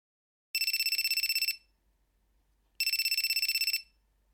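A telephone rings for an incoming call: two high-pitched rings, each about a second of rapid trilling pulses, separated by a gap of near silence.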